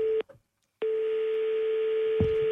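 Telephone tones as a call is placed: a short burst of steady electronic tone, a brief silence, then a long unbroken buzzing tone that holds at one pitch to the end.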